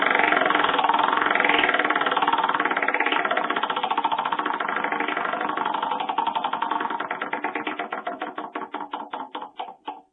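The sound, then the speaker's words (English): A prize wheel spins, its clicker ratcheting so fast at first that the clicks blur into a loud rattle. It then slows steadily into distinct, widening ticks as the wheel comes to rest. “let's spin the wonderful prize wheel and see what you get to take home.”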